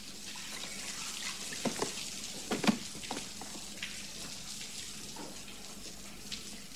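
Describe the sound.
Bathwater tinted yellow with mustard sloshes and trickles faintly, with a few small splashes rising above a quiet, steady watery wash.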